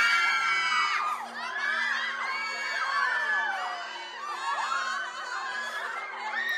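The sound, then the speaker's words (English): A crowd creates a commotion in front of a building, many voices shouting, laughing and cheering together in a dense, continuous din that rises and dips slightly in waves. “Suddenly, there was a commotion in front of a building.”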